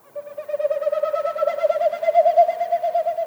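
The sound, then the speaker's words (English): Territorial winnowing of a male Wilson's snipe, made by air rushing through its stiff tail feathers as it flaps its wings in a spring display flight: a steady, hollow, rapidly pulsing hum that swells slightly before ending. “What you heard is a Wilson snipe doing its territorial sound, but it's made with its wings and its tail.”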